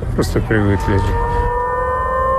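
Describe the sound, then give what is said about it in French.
Air-raid warning siren sounding in a city: a loud, steady, sustained tone with strong harmonics holds for over a second, with a voice talking over its start. “La sirène d'alerte est devenue le quotidien des habitants.”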